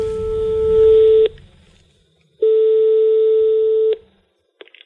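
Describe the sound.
A telephone line tone sounds while a call is being transferred: two long, steady, mid-pitched tones separated by a pause, with low rumble beneath the first, followed by a few faint clicks.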